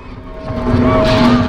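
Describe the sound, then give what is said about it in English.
A car drives past with a brief, loud engine tone that swells over about a second and a half. “A car goes by in the other direction.”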